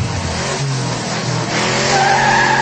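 A car speeding out of a parking lot, its tires squealing and skidding. A loud, continuous roar of engine and tire noise runs throughout, with a sharper high squeal rising out of it near the end.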